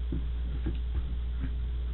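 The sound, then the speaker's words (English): Clock ticking, heard as a few faint, evenly spaced ticks over a loud, steady low hum, with no talk. “That's clock running, isn't it?”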